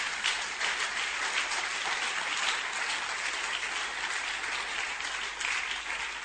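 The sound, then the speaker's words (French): Steady applause from a church audience during a French-language service fills the whole stretch, dense and even with no break. “Est-ce qu'on peut acclamer le Seigneur notre Dieu?”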